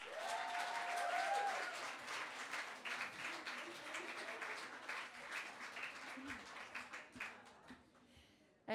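Faint audience applause welcoming a performer to the stage, with steady dense clapping that gradually tapers off toward the end.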